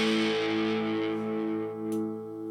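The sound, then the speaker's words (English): An electric guitar plays through a handmade distortion pedal with red knobs, three toggle switches and three knobs, producing a sustained, gritty distorted chord that rings steadily and slowly fades. “All he makes are dirt boxes. I like it. I like the red knobs. Three toggle switches, three knobs. I'm going to go down here and flip some switches and make some sounds.”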